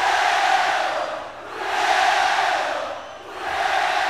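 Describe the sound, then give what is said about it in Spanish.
A live audience chants European-style football chants in unison, a loud massed roar of voices that swells and dips in waves, with no single voice standing out. “Cuando el público empieza a entonar cánticos europeos, que se oiga con huevo, con huevo.”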